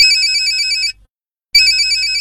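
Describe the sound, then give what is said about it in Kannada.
Mobile phone ringtone ringing: a bright, high electronic tone pattern plays loudly for about a second, stops for half a second of silence, then starts again. “ಯಾರ್ದಪ್ಪ phone?”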